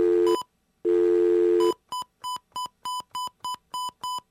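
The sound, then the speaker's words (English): A telephone number is dialed. Two longer steady tones are followed by a quick run of short, evenly paced dialing beeps, clear and alone. “Aren't those pleasant sounds, the sounds of our numbers being dialed?”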